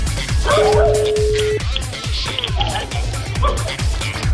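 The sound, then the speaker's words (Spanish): Dogs barking without pause: several dogs yapping and yipping in loud, overlapping bursts, with whiny, howling cries mixed into the constant noise. “Hay mendigos perros esos. No se callan, ¿eh?”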